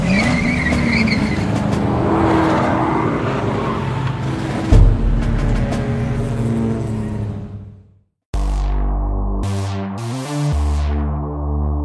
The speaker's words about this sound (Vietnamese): winding road in a highly fuel-efficient, low-maintenance vehicle like the Toyota Camry.